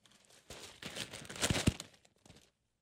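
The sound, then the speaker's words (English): A large paper scroll is rolled back up with soft rustling and crinkling for about two seconds, a couple of sharper crinkles near the middle, quiet overall and with no voices. “Let me fold up my scroll. There you go. Roll that thing back up.”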